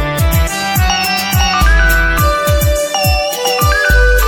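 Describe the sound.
A phone ringtone plays while a call is placed to a son: a bright, repeating electronic melody over steady thumping beats, loud and with no voices.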